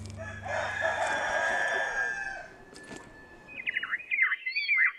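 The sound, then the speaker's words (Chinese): Chickens roam freely under dense walnut trees in a village. A long, drawn-out rooster crow comes first, followed after a short lull by a run of high, choppy chirps and clucks. “周区县曲马乡城马村的打嘎坪，茂密的核桃树下，不仅有随地走动的鸡群”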